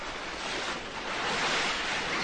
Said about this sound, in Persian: آب داره با فشار محمد رو با خودش میبره.